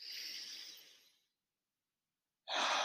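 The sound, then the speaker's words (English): A slow, deep exhale during a guided breathing exercise, a soft airy rush that fades away over about a second, followed by silence before another loud breath begins at the very end. “Breathe out the pressure. Breathe in peace.”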